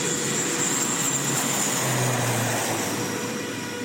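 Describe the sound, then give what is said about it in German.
A small propeller aircraft on the Funafuti–Fiji route gives a steady, loud droning hum that stays even throughout, with no voices. “Eine kleine Propellermaschine fliegt 3 bis 4 Mal pro Woche vom Hauptatoll Funafuti nach Fidschi und zurück.”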